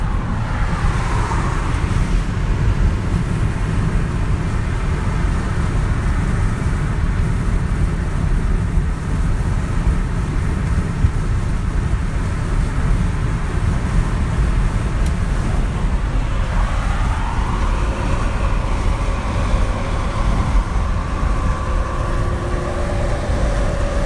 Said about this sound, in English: This is 1 minute of me driving down the freeway.